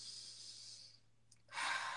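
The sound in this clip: A deep calming breath is drawn and let go: a long airy rush of breath fades to a brief pause, then another strong breath begins, with no talking.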